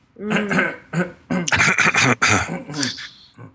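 Someone clears their throat in a loud series of rough, voiced bursts that come in several bunched groups.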